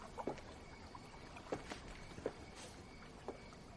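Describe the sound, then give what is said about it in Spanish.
A man rowing a small boat on water: faint oar strokes arrive as a few soft, irregular splashes and knocks over a steady low hiss. “Al poco llega remando en un bote el hombre”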